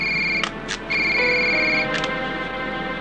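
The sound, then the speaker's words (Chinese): A wireless telephone rings with bright, steady electronic tones, broken by brief gaps and heard alone without voices. “队长，对方用的是无线电话，我们无法追查。 接电话。”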